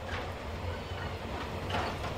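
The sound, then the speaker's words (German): A train running slowly on rails in rural Cuba, heard from inside a dining car: a quiet, steady low rumble with faint rattling and no voices. “Die Züge fahren unregelmäßig und langsam.”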